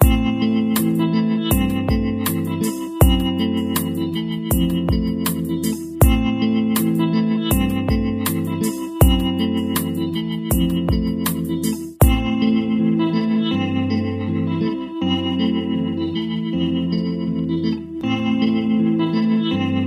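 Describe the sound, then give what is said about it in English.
A finger-picked A minor chord rings on guitar over a descending bass line, a steady repeating pattern whose bass note steps down about every three seconds, with notes sustaining and overlapping. “Example 10 features a finger-picked A minor chord supported by a descending bass line. It sounds like this.”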